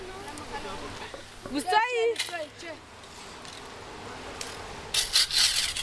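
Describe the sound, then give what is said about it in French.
Scraping of the ground, a few rough rubbing strokes, with a louder, brighter burst of scraping near the end. People talk over most of it. “quand on gratte, on ramasse derrière. Moi aussi, je gratte.”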